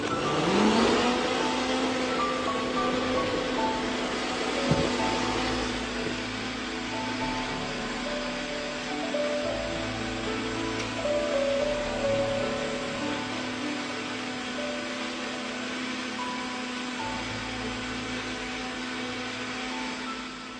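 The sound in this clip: An electric mixer beating a powdery mixture until it turns smooth and light; the motor whirs up quickly at the start, then holds a steady, even whine for about twenty seconds.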